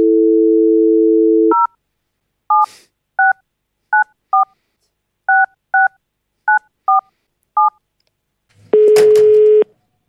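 A telephone dial tone before a call: a steady low hum, then a string of short touch-tone key beeps in an uneven rhythm, and finally a longer, buzzier tone as the line connects.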